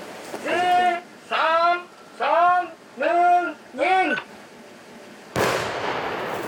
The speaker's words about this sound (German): Achtung, Achtung, wir sprengen jetzt.